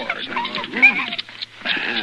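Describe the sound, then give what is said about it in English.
A large, wolf-like dog whimpers with thin, wavering whines and a few short yips, fairly close and continuous throughout. “Hey, this is Spiny Murphy's dog, isn't it, Chester? I'm going to keep him, Mr. Dillon. I said this is Spiny Murphy's dog, isn't it? It looks more like a wolf than a dog.”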